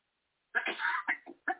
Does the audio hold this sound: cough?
yes

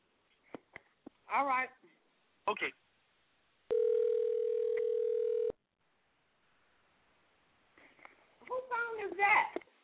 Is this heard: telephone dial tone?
yes

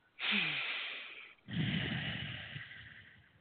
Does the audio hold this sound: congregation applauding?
no

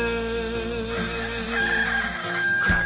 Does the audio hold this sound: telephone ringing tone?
no

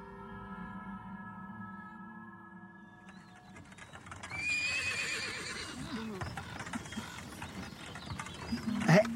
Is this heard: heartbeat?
no

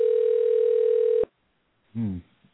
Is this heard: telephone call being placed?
yes

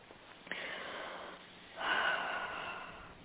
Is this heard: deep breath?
yes

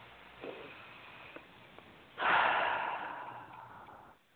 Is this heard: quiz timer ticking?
no

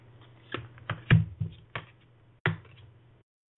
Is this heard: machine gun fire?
no

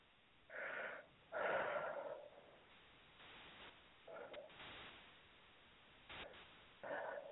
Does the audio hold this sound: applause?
no

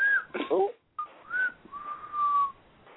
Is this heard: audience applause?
no

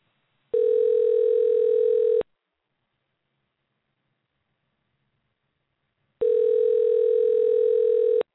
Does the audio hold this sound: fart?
no

